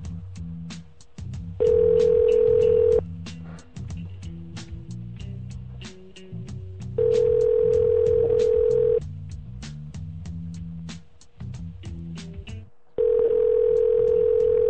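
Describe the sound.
Steady telephone dial tone comes up three times in separate stretches of a second or two each, sounding over a busy background of clicks and lower sounds.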